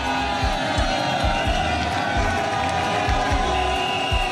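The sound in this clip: Roadside crowd cheering and clapping for Tour de France riders, a continuous noisy roar of voices and applause with some low, regular thumps beneath it.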